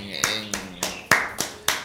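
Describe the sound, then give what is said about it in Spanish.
Six sharp, evenly spaced claps ring out in a steady rhythm as people applaud a guest named Chu from Tocoa, each clap a crisp, bright snap. “queremos démosle un aplauso a Chu de allá”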